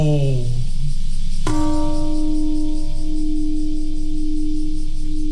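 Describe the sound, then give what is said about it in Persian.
The peace bell in Hiroshima is struck once at 8:15 in the morning on the anniversary of the atomic bombing. A long, steady ringing hum follows the strike and carries on for several seconds after a short passage of falling tones. “زنگ صلح ساعت 8:15 صبح به وقت هیروشیما به صدا در آمد.”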